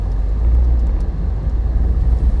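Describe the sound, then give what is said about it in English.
Steady low road rumble from a car driving through snow and ice in below-freezing Pennsylvania weather, a constant dense hum with no talk and no distinct events. “I am currently driving in Pennsylvania weather, which sucks.”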